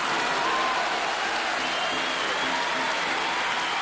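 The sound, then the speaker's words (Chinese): Steady applause from many hands, a continuous even rush of clapping with no pauses or distinct single claps, holding at a constant level throughout. “为程老板再鼓鼓掌”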